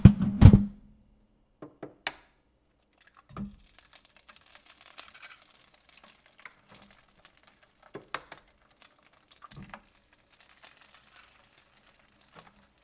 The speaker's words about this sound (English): I'm going to crack these eggs. Maybe you could hear that. Maybe I'll put you guys near it so you could hear it.